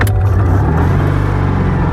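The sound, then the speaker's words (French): Engine of a sky-blue 1970s Citroën 2CV driving on country roads through fields in the Luberon, Provence: a loud, steady, low mechanical drone with a slightly throbbing texture and no voices. “On va prendre le volant d'une deux chevaux et parcourir les routes à travers les champs du Luberon.”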